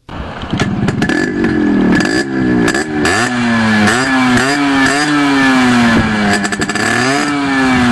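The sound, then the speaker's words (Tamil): A motorbike engine is revved hard and repeatedly, raising enough smoke to fill a house; its loud buzzing note climbs and drops through several throttle bursts and holds at a steady high rumble, with no voices. “எதுக்கு வண்டி இப்படி முறுக்கிட்டு இருக்க? ஊடு புல்லா புகை வர அளவுக்கா முறுக்குவ?”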